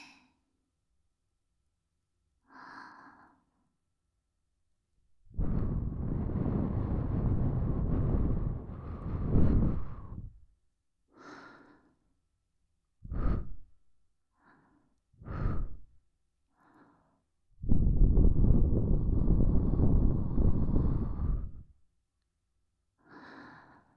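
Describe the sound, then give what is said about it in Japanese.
Breath is blown softly and close into the listener's ear in an ASMR setting. Two long, airy gusts of several seconds stand out, with a few short, fainter puffs between them, all separated by silence. “それじゃあ最後はお耳さんに息を吹きかけるわね。”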